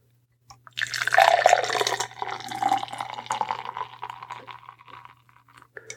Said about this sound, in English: Gotta love that sound. Gotta love that crack. Here you go. Oh, so it's a Mexican-style lager.